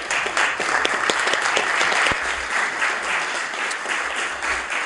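Applause fills a legislative chamber as members welcome visiting guests who rise in the gallery: dense, steady clapping, fairly loud and sustained throughout, with no talking over it.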